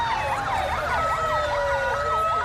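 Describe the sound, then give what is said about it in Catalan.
Police sirens wail through the streets of central Ceuta amid military vehicles, their pitch sweeping up and down in steady, overlapping cycles that stay loud and continuous throughout. “Entre sirenes de policia i vehicles militars, centenars de joves caminen sense rumb al centre de Ceuta.”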